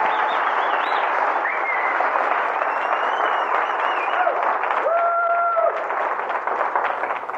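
An audience applauds to welcome the national director onto the stage at a session, a loud, dense and steady wash of clapping and crowd noise that holds at the same level from start to end.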